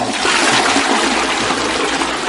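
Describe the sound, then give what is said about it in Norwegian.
Shower water running in a toilet room: a steady, full hiss of spraying and splashing water that continues unbroken from start to finish, with no voices. “du kan ikke ta deg en dusj nå. Du må vente deg etterpå.”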